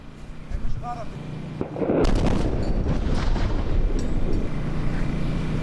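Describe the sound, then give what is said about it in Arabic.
Airstrike explosion on the town of Mansouri in the Tyre district of southern Lebanon: a sudden deep boom bursts in, then a heavy, sustained roar and rumble continues to the end. “غارة، غارة على الهواء يا جماعة، غارة.”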